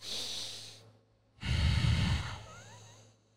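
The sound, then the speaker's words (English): Deep diaphragmatic breathing that draws air down into the abdomen, heard as two breaths separated by a short pause, the second longer, louder and heavier than the first, with no talking. “What ends up happening is when you inhale, the air drops to your, your abdomen. That stretches your diaphragm.”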